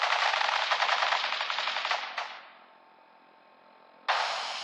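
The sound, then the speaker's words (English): A machine-gun volley of rapid, dense gunfire rattles loudly for about two seconds, then fades into a low steady hiss before a sudden burst of broad noise returns near the end. “Stop or we'll shoot. Men, open fire.”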